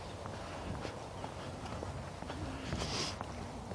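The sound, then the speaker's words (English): Footsteps of a person walking on a clean, dry path. The steady rhythm of steps sounds faint under continuous outdoor noise. “the paths are now clean, clear, dry. I'm laughing. I'm walking. I'm walking. Walking and talking.”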